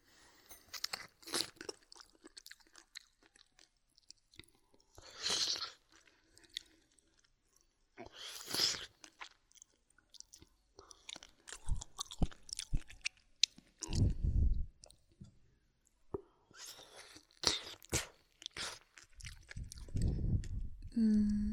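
Someone eats a meal with crunchy bites and chewing, heard as irregular, fairly quiet bursts of crisp crunching and moist mastication spread across the stretch.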